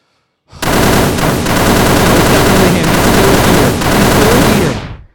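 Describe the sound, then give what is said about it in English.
Full automatic gunfire during a robbery, one loud, sustained rapid-fire burst that starts abruptly after a brief silence and runs unbroken for about four and a half seconds before cutting off. “So if it's full auto fire, it's probably him.”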